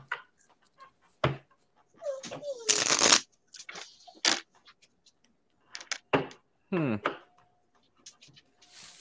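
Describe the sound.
Playing cards being shuffled and drawn from a deck: several short, crisp riffling and snapping bursts, some louder than others, separated by quiet pauses.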